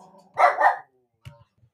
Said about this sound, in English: my dog was getting a little upset about the Ronaldo story